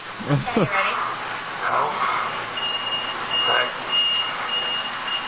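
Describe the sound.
Reversing beeps from a vehicle backing up: a steady, high-pitched tone that repeats evenly for several seconds while people talk over it.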